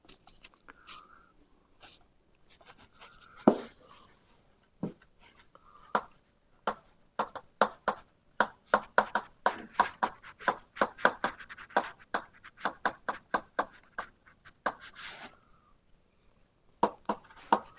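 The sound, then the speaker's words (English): Writing as Maxwell's equations are set down in four-vector notation: many short, sharp taps and scratching strokes in an irregular rhythm, with no talk over them. “I'm just going to finish off by writing Maxwell's equations in four vector notation.”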